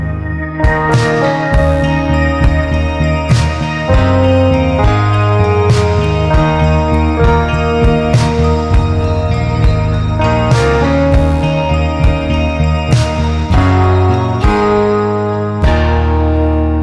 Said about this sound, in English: At the very beginning of this episode, this music played as the kind of dramatic intro music, and it sounded like this.